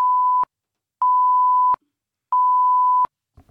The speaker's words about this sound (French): Tapez votre code, s'il vous plaît.